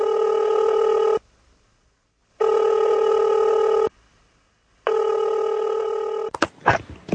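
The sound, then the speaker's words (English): A telephone rings on an outgoing call: three long, evenly spaced ring tones separated by silences, steady and loud, followed by a few sharp clicks as the line is picked up. “Let's just call people.”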